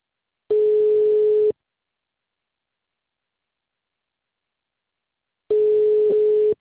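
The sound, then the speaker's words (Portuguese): Telephone line tones while a call is being forwarded: two long, steady, mid-pitched beeps, each lasting about a second, separated by roughly four seconds of silence. “Chamada sendo desviada.”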